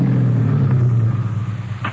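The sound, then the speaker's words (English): A car engine rumbles on a road above a lodge as the car drives and parks. A steady, loud, low hum runs alone throughout and eases slightly in the second half. “You park your car on the road above the lodge.”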